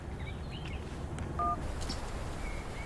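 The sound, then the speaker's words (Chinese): Telephone keypad dialing tone as someone places a call: a single brief, clean electronic beep in the middle of low, steady background noise. “给魏处打个电话。”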